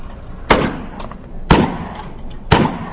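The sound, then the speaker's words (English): Three sharp gunshots ring out about a second apart, each a loud crack with a short fading tail, as a handgun is drawn and fired from the hip at cans set at different heights and angles. “I'm drawing the gun, shooting, and I'm shooting at different cans, different heights, different angles, different levels.”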